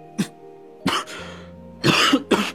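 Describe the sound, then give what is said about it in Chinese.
A man coughs in several harsh, throaty bursts separated by brief pauses. The last fits are longest and loudest, and no one speaks. “他忽然狠狠地哆嗦了一下，接着像是被海风呛住了，一手捂住嘴咳嗽了起来。”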